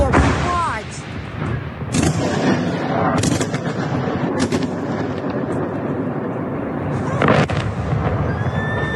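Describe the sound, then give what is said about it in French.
Missile strikes on Kyiv, filmed by a resident from her home, bring a few heavy booming blasts over a continuous rough rumble of noise. A person's voice is heard during the barrage. “Même scène à Kiev, où cette habitante a filmé les frappes depuis chez elle.”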